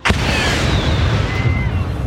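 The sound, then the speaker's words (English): Bombs dropping from an aircraft and exploding over houses: a sudden loud blast opens into a sustained, heavy rumbling roar, with faint falling whistling tones running through it. “The quiet evening is shattered by deafening explosions.”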